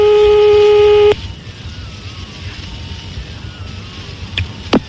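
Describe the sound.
Telephone line tone on an outgoing call: a steady, buzzy tone lasting about a second stops abruptly, leaving faint line hiss broken near the end by a couple of short electronic blips.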